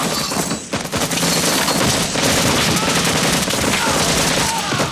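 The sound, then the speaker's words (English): Loud, sustained gunfire in a film battle scene, with soldiers shooting by a disused rail track and from a bridge. Rapid automatic bursts run continuously with no pause. “Erickson fires at the enemy while the others run across a disused rail track.”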